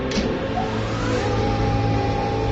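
An engine runs during a test run, a loud, dense, steady drone with a faint tone that climbs slightly as it speeds up.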